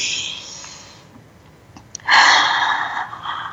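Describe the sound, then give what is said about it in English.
A group of people drawing a deep breath in together: a loud, breathy rush of air that swells suddenly after a quieter, hissing stretch and holds steady to the end. “Let's breathe that in.”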